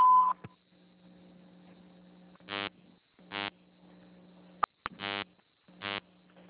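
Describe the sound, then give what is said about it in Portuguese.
An automated phone menu sounds a short, steady beep tone at the start. Four buzzy, pulsing tones follow at intervals over a low electrical hum, with a couple of sharp clicks between them. “Atendimento digital. Após o sinal, digite o ramal ou aguarde.”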